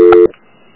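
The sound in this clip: A single telephone keypad tone sounds while a call is transferred to another extension. It is brief, loud and steady, then cuts off into near silence.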